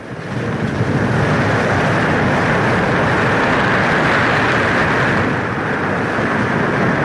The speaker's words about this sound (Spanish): El barco mercante que navega por el mar Egeo rumbo a Estambul mantiene fija su ruta.